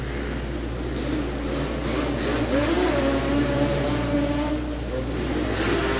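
Racing engine roar from Yamaha two-cylinder Banshee ATVs, a loud continuous drone with whining tones that shift in pitch as the machines rev.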